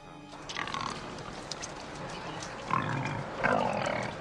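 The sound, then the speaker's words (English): A herd of pigs forages in a brown field, grunting low and continuously, with a few louder grunting bursts near the end. “In the morning, a herd of pigs forages in a brown field across the highway from the Braidwood Inn.”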